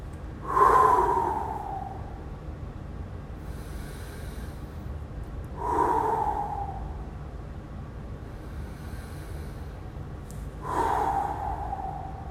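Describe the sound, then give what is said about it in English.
Three deep, sweeping breaths taken during a guided breathing exercise, spaced about five seconds apart. Each is a soft, airy rush that swells and then fades, heard alone with no talking. “Let's do three sweeping breaths and come back to this room.”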